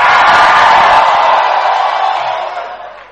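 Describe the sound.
A church audience shouting and cheering, a loud, dense wash of voices that gradually fades.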